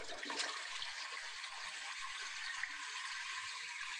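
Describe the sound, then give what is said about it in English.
A toilet flushes, played as a sound to guess in a quiz game: a steady, loud rush of water that holds evenly for the whole few seconds, with no voices. “Flushing a toilet. Correct. Flushing a toilet.”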